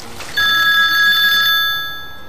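A telephone rings with an incoming call: a steady electronic ring tone starts abruptly and holds for about two seconds, tapering slightly at the end, with no voices.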